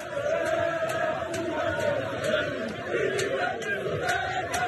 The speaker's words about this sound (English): That was the sound of celebrations on the streets of the capital, Libreville